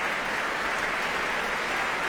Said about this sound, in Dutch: En applaus hier ook voor Ramon van Engelenhoven op piano.